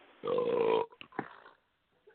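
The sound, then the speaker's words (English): A man burps: one long, loud, rasping belch, followed by a few shorter, fainter guttural sounds and then quiet. “Oh, he burped right before you hung up, too. What a dirtbag. He burped on the way out.”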